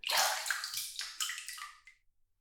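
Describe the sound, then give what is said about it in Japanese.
Hot water pours and splashes over a body before bathing, a rushing gush that starts strong and then breaks into several shorter splashy bursts, thinning out and stopping after about two seconds, with no talking. “お湯に入る前に、まずはお湯を浴びてね。”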